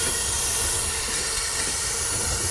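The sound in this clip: Air hisses steadily and loudly as a pottery kiln's air supply is opened, a constant broad rushing sound with no pauses.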